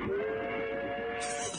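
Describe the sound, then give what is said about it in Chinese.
Whistle of a steam train bound for Meihekou, slowing as it enters the Changbai Mountains: a sustained, steady mid-pitched tone over continuous hiss, with the hiss growing brighter near the end. “真没想到还有小鬼子的火车送咱们一程。 火车驶进长白山的时候，车速渐渐地慢了下来。”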